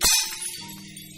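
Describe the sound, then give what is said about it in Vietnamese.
Something breaks with a loud crash inside a house: one sharp, bright burst that dies away within about half a second, then low, quieter tones linger. “Một âm thanh xoảng đổ vỡ lớn bên trong nhà.”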